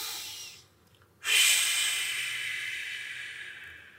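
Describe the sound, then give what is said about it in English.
Slow, deliberate breathing done for stress relief: a soft airy breath fades out, a short pause follows, then a long, loud hissing breath starts abruptly and slowly tapers away. No one talks. “what you do is you force a slow in and out breath. So you go, and then you go, and you do three of these.”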